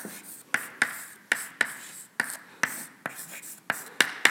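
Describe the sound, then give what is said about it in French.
Chalk-free scratchy writing strokes as an equation is written out during a lecture: a steady series of many short, crisp scrapes and taps at a fairly regular pace, with no talk over them. “Alors je vais écrire l'équivalent de cette équation-là.”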